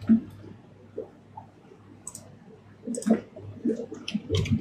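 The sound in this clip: Typing on a computer keyboard: faint, irregular light clicks and taps with uneven spacing, growing busier and a little louder toward the end over a low steady hum.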